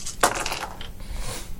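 Six dice are thrown onto a table during a tabletop role-playing game. One sharp clack is followed by a loose rattle of smaller clicks and knocks as they tumble and settle.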